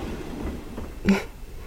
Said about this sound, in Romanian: Și trenurile care se aud? Trenurile pe care le-ați salvat.